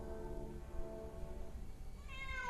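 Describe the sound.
A wounded cat yowling: a faint, drawn-out, wavering caterwaul, then a higher meow that rises in pitch near the end, over a low rumbling background.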